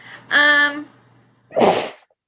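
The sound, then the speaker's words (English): A woman sneezes once during a sneezing fit. A voiced, tonal intake is followed after a short pause by a loud, noisy burst. “I might sneeze because apparently I'm having a sneezing fit”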